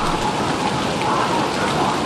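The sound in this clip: Rain falling steadily at an outdoor night-time art event among trees, a dense, continuous hiss of drops that holds even from start to end, with no voices.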